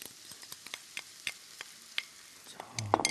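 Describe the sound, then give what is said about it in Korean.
Faint sizzling of stir-fried squid in a pan as premade sauce is stirred in, broken by many sharp clicks and taps of a utensil, with no talk. “아까 미리 만들어 놓은 소스, 예. 잘 저어 주시고, 잘 저어서 넣어볼게요.”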